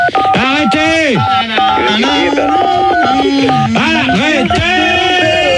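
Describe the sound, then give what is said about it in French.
Telephone keypad tones played as a melody, tapping out a national anthem tune in bright, synth-like notes with gliding pitches. Voices talk over and between the tones throughout. “Arrêtez. J'ai reconnu, il joue la Marseillaise quand même.”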